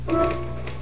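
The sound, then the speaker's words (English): Typewriter typing, a few quick clacking keystrokes in under a second, fairly faint against a steady low hum. “I typed the results of the fifth and sixth races at Aqueduct.”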